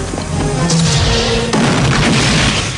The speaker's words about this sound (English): fires grenades, exploding a truck